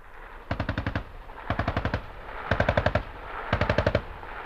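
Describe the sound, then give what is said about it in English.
Medium machine gun fire at a peacekeeping checkpoint drill against a jeep: four sharp, loud bursts of rapid shots, each about six rounds, spaced evenly roughly a second apart. “would you ever be involved like those men there in a medium machine gun?”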